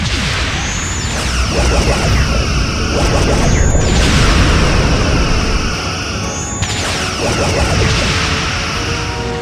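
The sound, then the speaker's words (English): Starship phasers fire during a space battle, three sharp energy blasts ringing out at even intervals over a loud, constant rumbling roar. “Shields are down to 8% and barely holding. They're coming around for another pass. Helmsman, full actual rotation to port. Continual fire, all phasers.”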